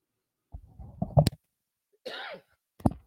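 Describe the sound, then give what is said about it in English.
Coughing during a live recording: a rough, throaty cough cluster, then a brief breathy rasp, and one more short cough after a pause, all fairly loud against silence. “sorry, I had to cough there for just a moment.”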